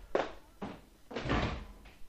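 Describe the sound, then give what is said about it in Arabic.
A door is shut in a historical Arabic drama scene. A few heavy wooden thuds follow one another, the third longer and louder than the rest. “أغلق الباب يا غلام.”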